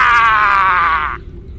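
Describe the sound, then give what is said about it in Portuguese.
A loud battle cry shouted by a player in a tabletop role-playing game after slaying a rat: a single sustained, strained, high-pitched yell lasting about a second that cuts off abruptly. “Trespassei o rato. Eu dou um grito assim.”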